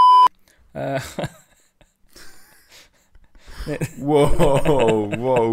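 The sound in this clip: A short, loud electronic censor beep masks a name at the very start, a steady tone that cuts off sharply, followed by people talking.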